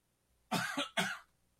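A man coughing while recovering from a bad cold: a quick cluster of a few loud, dry coughs over about a second, alone against near silence.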